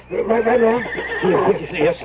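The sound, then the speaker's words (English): Horses neighing during a scene at a bridge: loud, drawn-out whinnying with a wavering pitch that fills about two seconds in overlapping bursts. “Stop. Stop the horses.”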